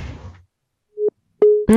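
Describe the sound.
Telephone line tones after a caller hangs up: brief talk, a pause, then a few steady electronic beeps, a short one followed by a longer one and a final buzzier, lower tone.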